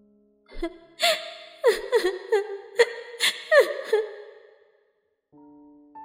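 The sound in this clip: A girl crying in a series of gasping, whimpering sobs that rise and break, several short catches of breath, fading into quiet with a faint steady tone at the very end.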